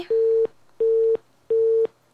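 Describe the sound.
A telephone busy tone sounds after a call drops: three identical steady mid-pitched beeps, evenly spaced with short gaps, heard alone.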